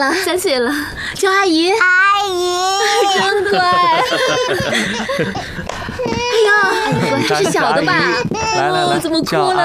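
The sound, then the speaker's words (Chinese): A small child cries with high, wavering wails that rise and break while several adults talk over and around the sobbing throughout. “怎么哭了呢？太小了，认生呢。”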